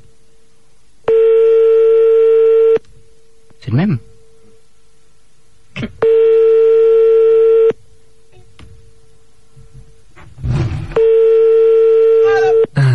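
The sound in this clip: Telephone tones while calling back someone who hung up: three long, steady, buzzy tones, each about one and a half seconds, evenly spaced, with brief speech and clicks in the gaps between them.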